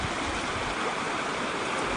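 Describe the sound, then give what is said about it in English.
Small waterfall tumbling among pine trees in the dead of winter, a steady, dense rushing hiss of falling water that holds an even level throughout, with no voices. “It's in the dead of winter now, so there aren't much vegetation going here except the pine tree, little waterfalls.”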